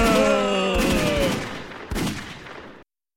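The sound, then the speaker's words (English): Gunfire in a rapid burst: a few loud blasts, each trailing into a long, decaying rumble, over a tonal background, before cutting off abruptly. “Oh, they're shooting us.”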